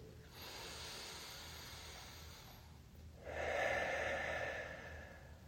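Deep breathing during a breathing exercise: one long, soft inhale, a short pause, then a stronger, hissing exhale, faint and heard alone.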